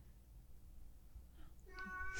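A cat meows once near the end, a short, fairly faint cry above a low, steady background rumble.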